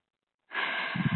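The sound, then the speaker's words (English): One deep breath drawn in after a moment of silence: a sudden, steady airy rush that holds at an even loudness, with a little low voicing near its end. “Take a deep breath.”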